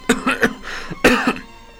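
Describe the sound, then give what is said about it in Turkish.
A person gives a light cough to clear the throat: a few short, husky coughs in two quick bursts, fairly loud and alone, with no talk. “Önce oturuşunu düzeltip boğazını temizlemek için hafifçe öksürdü.”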